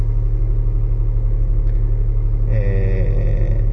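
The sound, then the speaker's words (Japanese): A car engine idling while warming up gives a steady, loud low rumble with a pulsing throb, and a faint tonal whine joins over it in the last second or so. “まあ暖気運転なんてする必要ないんですけれども”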